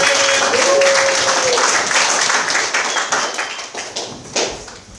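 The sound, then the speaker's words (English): Audience applause welcomes a speaker to the podium: a dense, steady wash of clapping that stays loud for the first few seconds and then gradually thins out toward the end. “Let's give him a round, huh?”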